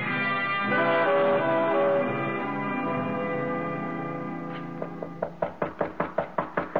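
Knocking on a door, a quick, even series of sharp raps that begins as a sustained, swelling orchestral chord fades away.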